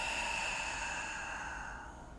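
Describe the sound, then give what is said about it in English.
Deep breathing, in through the nose and out through the mouth: a steady, airy rush of air that fades slowly toward the end, heard alone without talk. “Let's take three deep breaths here to end this practice. Deep breath in through the nose, out through the mouth”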